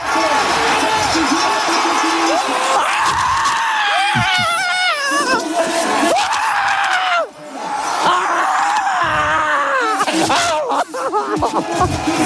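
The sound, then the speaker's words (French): Crowd at a cross-country skiing World Cup finish in France roars as a French skier arrives: loud sustained cheering, high shrieks and screams, and excited shouting voices that briefly dip, then surge again. “Écoutez juste l'ambiance. Au moment de l'arrivée de Richard Jouve, la joie incroyable du Français devant un public français.”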